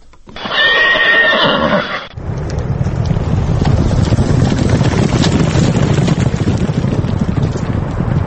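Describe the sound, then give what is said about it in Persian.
A single loud horse whinny rings out at a horse race with native Tajik and English breeds in Dushanbe, Tajikistan. A dense, steady rumbling wash of noise follows and continues to the end. “روز 23 مارت در نوروزگاه یا سابق ایپادروم دوشنبه مسابقه اسب دوانی برگزار شد. در این مسابقه اسب‌های ذاتی تاجیکی و انگلیسی شرکت کردند.”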